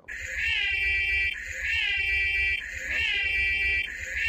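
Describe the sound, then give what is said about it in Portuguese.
An electronic alarm sound effect played as an off-topic alarm. It gives three loud, high, warbling cycles, one after another, over a low rumble with no talk. “a gente tá para instituir o alarme de assunto. Toda vez que começar a se desviar do assunto, vai tocar esse som aqui, ó.”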